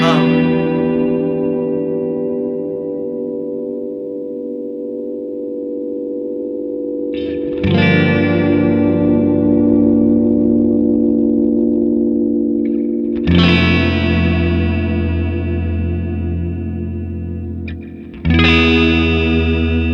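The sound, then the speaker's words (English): Ghostly, floating reverb from a VVco reverb pedal: sustained chords hang and shimmer, with a few new swells entering over the lingering tail, steady and loud throughout with no voices. “I've never heard a reverb do that, where it just hangs there like that and floats like a ghost. It's unique.”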